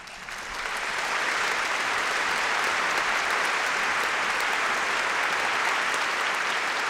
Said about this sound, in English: That's our studio audience.